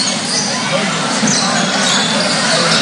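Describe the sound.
A basketball is dribbled up the court during a high school game between Coldwater and Fort Recovery, buried under steady, loud crowd noise with no distinct bounces standing out.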